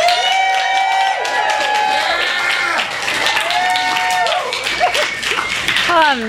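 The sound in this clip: Applause from a bookstore audience welcoming an author fills the whole stretch, dense and steady throughout.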